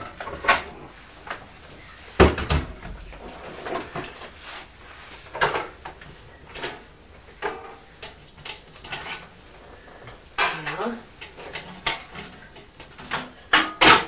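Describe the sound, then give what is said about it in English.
Mummy's cupboard being opened and a tin taken out, many clunks, knocks and light metallic clatters of varying loudness scattered irregularly throughout. “This is Mummy's cupboard again. I'll take a tin.”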